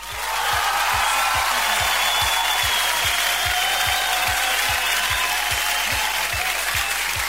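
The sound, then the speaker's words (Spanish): Applause on a radio program, a loud, sustained wall of clapping that holds steady over a regular low thumping beat. “Así que un gran aplauso para él o para ella.”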